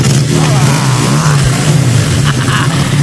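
An engine revving inside an office, a loud, continuous, low rumbling roar that holds steady throughout with no pauses and no talk over it.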